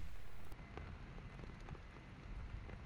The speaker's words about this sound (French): la météo est confirmée, une pluie fine nous accompagnera toute la journée.